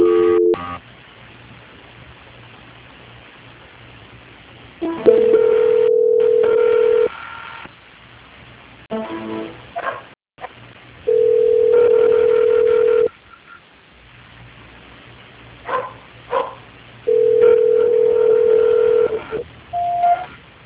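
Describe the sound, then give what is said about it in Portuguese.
Telephone line tones during a call transfer: a steady tone returns in three long pulses separated by quieter line noise, with a few short dialing beeps near the end. “Alô, dona Maria, fica na linha, tá? Tá bom, tá bom. Transferência.”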